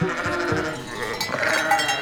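A herd of goats crowds close behind someone, their bleating blended into a dense, continuous shuffle of animal noise at a moderate, steady level.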